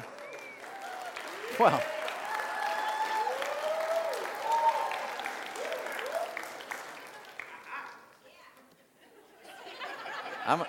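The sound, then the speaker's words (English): Audience applause mixed with scattered chuckles and laughter while a man talks over it, the clapping and chatter holding steady before dipping briefly near the end. “I'm going to work on a series of lines that whatever I say, I get a little applause.”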